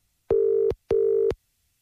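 A telephone ringback tone sounds on an outgoing call: two short, steady, low-pitched tone bursts of equal length with a brief gap between them, then silence.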